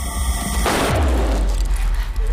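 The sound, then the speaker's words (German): A handgun fires once in a German audio drama. A sudden loud crack abruptly cuts off the earlier sound and leaves a low, lingering rumble. “Die Waffe ging los.”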